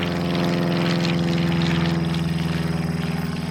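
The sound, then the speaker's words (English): Steady drone of an aircraft engine in flight on a plane heading from Spain into Portugal toward Lisbon, a continuous low hum with a faint rhythmic throb and no voices. “once she's on the aircraft and they're flying from Spain into Portugal towards Lisbon”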